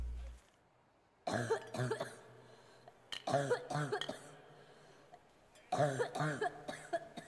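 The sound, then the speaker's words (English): A woman coughs in three separate fits. Each fit is a quick run of harsh, throaty coughs, with quiet gaps between them and no talking. “I too look askance at the coughing lady.”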